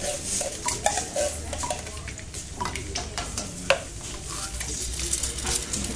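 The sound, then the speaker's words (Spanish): Busy café kitchen ambience with a steady sizzle and stirring under scattered clinks of dishes, pots and cutlery. One sharper clink stands out partway through. “Nos metemos en el cafetín de Omar a charlar sobre temas poco importantes.”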